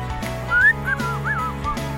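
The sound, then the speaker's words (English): A person whistles inward, drawing breath through the lips to make a short, wavering, mid-high whistle that slides up and then wobbles, heard alone over a faint steady hum. “But I can't. I can only do inward whistling.”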